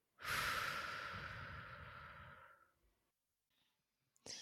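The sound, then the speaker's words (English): Deep breathing exercise: a long, loud, breathy whoosh of air in and out that tails off and leaves a brief quiet gap, followed by a faint click at the end. “we'd like to invite you to drop in and take a breath with us. Inhale. Exhale.”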